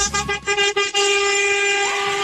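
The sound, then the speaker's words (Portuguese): Car horns honking in a celebratory horn-blowing: a few short blasts at the start, then steady, sustained horn tones that hold to the end, with no talk. “Aí, ó, buzinaço.”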